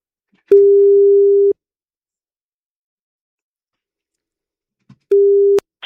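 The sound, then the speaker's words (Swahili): Ringback tone of an outgoing phone call ringing out: two long, steady, single-pitched tones separated by a long silence, the second cut short by a sharp click. “Cha tumpigie simu.”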